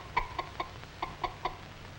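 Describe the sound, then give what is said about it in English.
Clucking of a fussy old hen, six short, evenly spaced clucks in two groups of three, clear and moderately loud with no voices. “This fussy old hen doesn't like to have cats and kittens around.”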